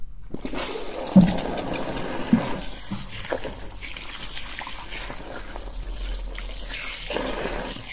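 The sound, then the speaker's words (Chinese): Water runs from a tap to rinse someone at a massage venue, a steady, even gush that lasts the whole clip, with a couple of brief knocks early on. “我现在冲水了，身温合适吗？”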